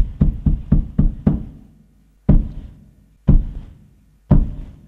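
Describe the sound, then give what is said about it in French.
Knocks signalling the start of a theatre performance: five quick, loud knocks in a row, then a pause, then three slow, heavy knocks evenly spaced about a second apart, each fading out before the next. “Les 3 coups. Vous savez pourquoi on frappe les 3 coups ?”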